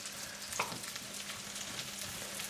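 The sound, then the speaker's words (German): Button mushrooms frying in butter in a pan give a steady, crackling sizzle with a brief sharp tick near the start, dense and even throughout. “Aber wenn die nur in Butter gebraten sind, dann haben sie schon einen Biss.”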